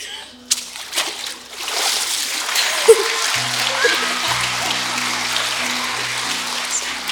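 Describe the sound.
Water splashing as a person is dunked in a baptism by immersion, a sudden splash followed by a sustained rush of streaming, splattering water, with voices talking over it.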